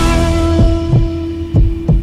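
Heartbeat thumps from a cardiac pacemaker and arrhythmia clinic advertisement, two low double beats in a steady lub-dub rhythm over a continuous hum.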